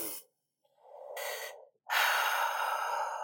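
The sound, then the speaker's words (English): A person takes a deep breath in and lets it out during a morning breathwork practice: a steady, airy inhale, a brief pause, then a louder and longer exhale, with no talk. “really focus on your breath and take a deep breath in”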